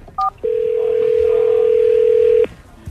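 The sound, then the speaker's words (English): A single two-note keypad beep from a telephone being dialed for a cold call to a football team's season ticket holders, followed by a long, steady, loud single-pitch tone held for about two seconds. “Here it is yesterday, Nick Foles, cold caller.”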